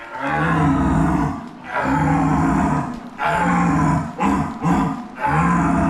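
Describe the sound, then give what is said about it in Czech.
Deep, groaning roars from a deer lure imitating a red deer stag's call, meant to sound like an old stag: a series of long, loud, harmonic bellows separated by brief breaths, with no talk. “tady ukazoval, jak se vábí jelení”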